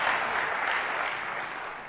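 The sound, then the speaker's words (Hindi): Loud, dense clapping from a group of people, a continuous even patter of many hands that holds steady and eases slightly toward the end. “जोर से ताली बजाइए, सब जोर से ताली बजाइए”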